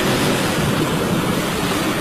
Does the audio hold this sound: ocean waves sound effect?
yes